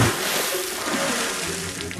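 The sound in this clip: Water splashes during a station pledge drive, soaking a man named Keith. A short burst of steady, rushing splashing lasts the whole clip at moderate loudness, with no talk over it.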